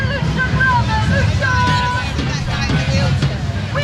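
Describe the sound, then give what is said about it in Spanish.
Crowd ambience at street marches in London, where pro-Palestine and far-right demonstrations ran at the same time: a dense, steady din of many voices with some high whistle-like tones over it. “Ese es el ambiente hace unos minutos en Londres.”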